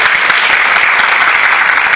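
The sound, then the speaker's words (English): Loud, dense applause at an elementary school math night, many people clapping in a continuous, even roar. “There's a lot of applause.”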